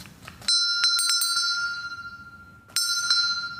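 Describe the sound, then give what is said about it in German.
A small table bell from a First World War submarine, dated 1917, is rung twice, about two seconds apart. Each strike gives a bright, high ding with a long ringing tail, and faint handling clicks come before the first. “dass man dann die kleine Tischglocke auch klingen lassen kann. Wollen wir sie mal hören?”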